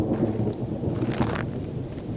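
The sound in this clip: Rain falls in a steady, soft hiss with a low rumble beneath it, unbroken throughout the short stretch and with no voices.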